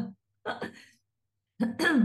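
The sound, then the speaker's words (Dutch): A few short coughs and throat clearings come in separate bursts, with brief silences between them. “Ik moet heel even hoesten. Dat is helemaal kut natuurlijk, maar soms moet je gewoon even hoesten.”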